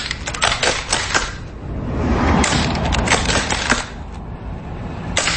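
A bolt-action rifle's bolt is worked rapidly as if firing three shots, giving many sharp, dry metallic clacks and rattles in quick, uneven bursts, loud and with no talk.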